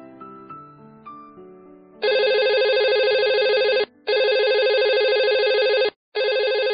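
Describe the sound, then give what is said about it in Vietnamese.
A telephone rings repeatedly with a bright, buzzy electronic tone, sounding in three long, loud bursts separated by brief gaps, with the last burst cut off. Softer, lower tones come before the ringing begins. “Điện thoại liên tục reo vang từ sáng tới giờ, hết bố mẹ cô lại đến Giản Phái Lam.”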